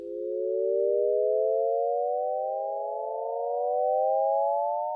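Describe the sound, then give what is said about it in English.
An ascending Shepard-style glissando built from overlapping chords that fade in and out, heard as smooth, layered pure tones gliding steadily upward without pause, giving the illusion of an endless rise. “Voila! Shepherd tone. Let's listen to it for just a little bit longer, just for effect.”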